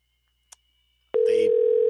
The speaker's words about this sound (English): Better answer the phone.